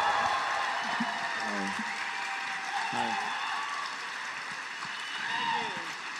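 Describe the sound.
Audience applause for a comedian taking the stage at a live comedy show: a steady wash of clapping and cheering that runs through the whole clip, with voices calling out over it.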